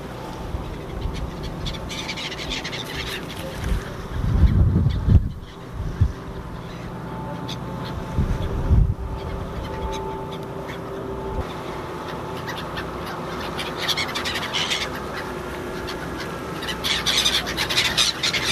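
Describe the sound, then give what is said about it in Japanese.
Seagulls squawk over the water while food is thrown to them from above, sounding many sharp, repeated cries over a steady low rumble and wind. “カモメが相変わらず”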